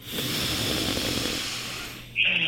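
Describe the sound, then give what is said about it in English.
A deep breath drawn in through the nose during a guided breathing exercise: one long, steady, airy inhale lasting about two seconds, heard alone and fairly soft. “let's go in through the nose.”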